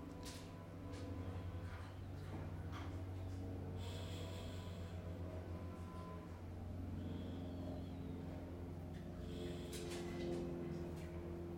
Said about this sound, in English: And I breathe in.